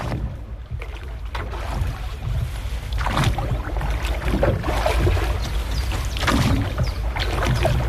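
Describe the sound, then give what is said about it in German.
A rowboat on a lake: soft splashing and gurgling water from a few oar strokes over a steady wash, with no voices. “Ein Ruderboot auf dem See.”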